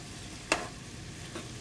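Food frying in a pot on high heat as water cooks out, being stirred: a faint, steady sizzling hiss with one sharp scrape of the spoon and a softer second scrape later, no voices.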